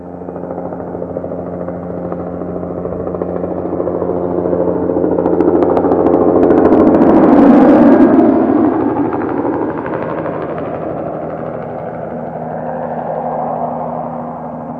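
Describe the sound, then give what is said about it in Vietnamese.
A helicopter flies overhead, its engine and rotor roar swelling to a loud peak midway, then dropping in pitch and easing off, staying audible to the end. “Tiếng trực thăng bay ào ào làm mọi người tỉnh giấc.”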